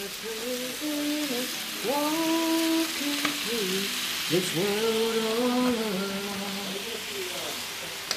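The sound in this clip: Venison burgers frying in a pan as dinner is cooked at the end of a hot day, a continuous sizzling hiss running beneath louder, intermittent tonal voice-like sounds.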